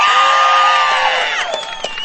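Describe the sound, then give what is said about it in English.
A crowd cheers and whoops loudly, high shouting voices stretching into long cries that bend downward, then break into scattered shouts and a few claps as the noise eases slightly toward the end. “You've already been doing such a good job of cheering”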